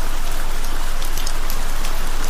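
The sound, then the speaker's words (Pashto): Heavy rain pours down in a dense, steady, loud hiss of countless drops that never lets up. “باران تیز شو داسې شرشوری شو لکه ناوې چې له اسمان راخوشې شي”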